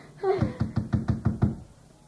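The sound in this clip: Knocking on a door: a quick, even run of firm knocks in steady rhythm, each one short and dull, with a brief vocal sound just before the knocks begin.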